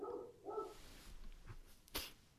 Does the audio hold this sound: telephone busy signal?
no